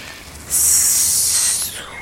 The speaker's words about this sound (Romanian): Un șarpe, nu! Nu te apropia!